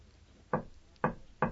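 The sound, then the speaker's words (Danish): Three loud, dull knocks on a monastery gate, rapped alone with uneven spacing. The second and third blows come closer together than the first two, and each is a short, solid thud with a quick decay. “Hvem mon der banker, her nu så stille, på klostersporten”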